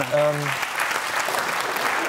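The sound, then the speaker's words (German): Spontaneous applause from a small group during an interview conversation: a brief voice at the very start, then a steady, fairly soft patter of clapping that continues to the end. “Jetzt kommt hier spontan Applaus in der Runde.”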